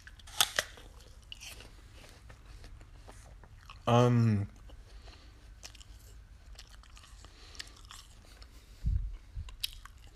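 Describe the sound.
A crunchy apple being bitten and chewed: a few crisp, loud crunches separated by quieter stretches of chewing.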